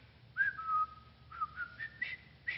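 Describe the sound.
A person whistles a short tune, a little dry and breathy: a few clear, high notes with gaps between them, stepping up in pitch toward the end.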